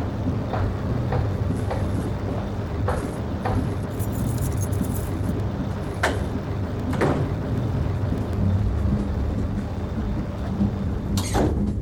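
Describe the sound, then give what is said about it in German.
A speeding train in a radio drama rumbles steadily, with a low roar beneath scattered metallic clacks and rattles that recur throughout, and a couple of sharper high clatters near the middle and end. “Wir haben alles versucht, den Zug anzuhalten. Gleich als wir bemerkt hatten, dass mit der Strecke etwas nicht stimmt. Doch der Zug rast immer weiter. Und er wird immer weiter rasen.”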